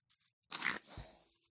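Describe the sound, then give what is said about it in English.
A journal is picked up and handled, making a brief, faint crunch of paper and cover followed by a soft scraping rustle that fades out. “Let me grab this journal.”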